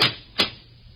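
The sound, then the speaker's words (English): Two sharp knocks on a door, struck less than half a second apart. Each is a brief, hard rap heard alone against a quiet background. “There was a knock on the door.”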